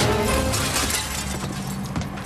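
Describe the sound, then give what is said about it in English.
A window being smashed from inside a building. Loud, dense crashing and shattering glass continues without a break through the whole clip. “leaps onto a fallen filing cabinet so that he can smash the window, which is now directly overhead.”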